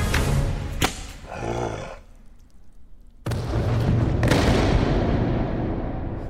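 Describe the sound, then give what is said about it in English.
A gunshot fired at a creature makes a sharp, loud crack that cuts into a dense, roaring noise bed. Another brief burst sounds earlier, and there is no clear speech. “She shot it right through the eye!”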